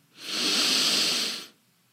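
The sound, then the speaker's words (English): A slow exhale from a deep belly breath during a guided breathing exercise: one long, smooth, airy rush of breath that swells, holds steady, then tapers off into quiet. “Belly full. Release the breath.”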